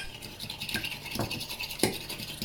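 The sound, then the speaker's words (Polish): A fork stirs eggs with salt and pepper in a deep plate in small circular motions, making a quick, faint, continuous scraping and brushing with light taps against the plate. “Mieszam jajka z solą i pieprzem przy pomocy widelca.”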